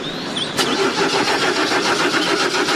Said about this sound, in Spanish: ¡Dale, dale, bicho inútil! ¡Arrancá de una vez! Tranquilo, ¿sigue peleando con el generador? ¡Oh! Ya arrancó